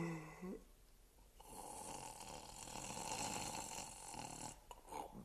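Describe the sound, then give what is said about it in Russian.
A person snoring after dozing off early following a meal, one long, rasping, breathy snore that swells and holds steady for several seconds before breaking off. “Как только я услышал храп, дремота сморила и меня, и я тоже уснул.”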